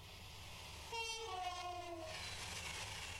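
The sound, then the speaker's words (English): A Pendolino train rushes past, sounding a brief, chord-like horn blast over a low, steady rumble, followed by a broad whooshing rush of noise. It is quiet overall and no voices are heard. “That's a Pendolino train hitting me.”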